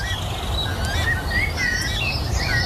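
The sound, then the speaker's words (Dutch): Weka calls from a protected New Zealand bird: a steady run of many short, high chirps and whistles over a constant noisy background, with no talking. “Ja, dat hoor je goed. Een weka, een beschermde vogel uit Nieuw-Zeeland.”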